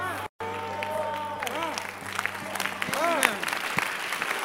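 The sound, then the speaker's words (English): An audience claps during a sermon about faith, steady clapping broken by a very brief dropout near the start, with raised voices and cries ringing out over it. “If you are not clapping, you don't have faith.”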